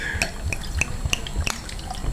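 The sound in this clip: A small pour of liquid, heard as a regular series of bright, watery plinks and drips spaced about a third of a second apart over a steady low hiss.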